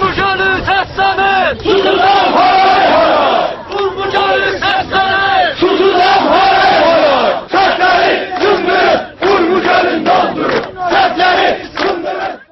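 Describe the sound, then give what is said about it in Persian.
Many voices chant slogans in unison, loud and rhythmic, at a protest rally on 13 Farvardin against the slow death of Lake Urmia. The chants repeat in short bursts with brief gaps. “در جریان تجمع‌های روز 13 فروردین، تجمع کنندگان که به مرگ تدریجی دریاچه ارومیه اعتراض داشتند، شعار می‌دادند”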